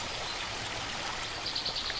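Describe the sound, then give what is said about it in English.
A creek flows during a crossing in a shrubby foothills canyon after a wet season, producing a continuous, even rush of water with a brief brighter burble near the end. “So we're crossing Bear Creek.”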